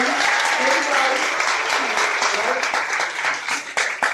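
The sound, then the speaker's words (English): An audience gives a loud round of applause with raised voices and cheers mixed in. The clapping is strongest at the start, then turns more ragged and uneven toward the end. “We're going to try to give ourselves a huge round of applause for yourself.”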